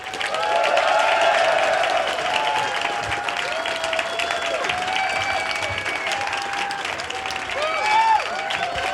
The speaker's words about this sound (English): let's give him a huge round of applause